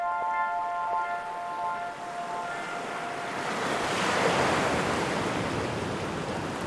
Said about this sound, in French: le bruit de l'eau en baie de Somme